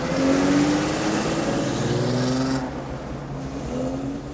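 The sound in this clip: A classic car pulls away in a 1990 police action film, a woman at the wheel; a steady mid-pitched engine drone with faint tonal hum that eases a little after a couple of seconds.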